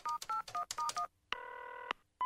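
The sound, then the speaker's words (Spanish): Telephone keypad dialing tones: a rapid string of short dual-pitch beeps, a pause, one longer held tone, then the start of another, all clean and electronic. “Los dedos que ha utilizado para marcar son demasiado gordos.”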